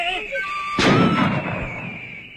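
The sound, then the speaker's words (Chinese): A single loud gunshot, used as a sound effect in an audio drama, cracks out and leaves a rumbling tail. A voice is briefly heard beneath it. “开枪！”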